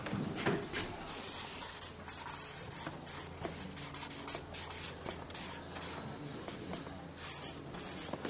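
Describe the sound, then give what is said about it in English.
Handwriting with a pen as the name of a tower is written: faint, scratchy strokes in short rhythmic bursts separated by brief pauses, with no voices. “I know my writing's not good, but you can make out I've just written the name of the tower.”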